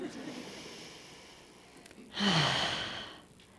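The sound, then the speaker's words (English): A single deep breath, a long breathy inhale-exhale lasting about a second that swells out of near silence and then fades, alone with no voices. “deep breath. Thank you, Erica. I'm going to do one of those.”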